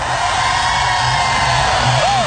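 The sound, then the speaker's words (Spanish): A stadium crowd at a religious gathering lets out a shout of joy, a loud, dense, sustained roar of many voices that stays steady throughout, with one whoop rising above it near the end. “Eso, ese grito de júbilo.”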